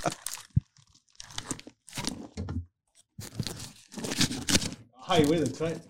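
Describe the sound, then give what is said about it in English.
Adhesive tape ripped off a package in a few loud, crackling tearing bursts with short pauses between them, while people talk over and around the noise. “Tape. That's so loud.”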